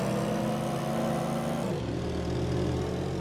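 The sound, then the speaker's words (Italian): Car engines in an audio racing video game as another player overtakes on the left: a steady mid-pitched engine drone whose tones drop sharply in pitch partway through as the car passes. “bisogna cercare di superarne tre facile a sinistra il giocatore 3 sta sorpassando”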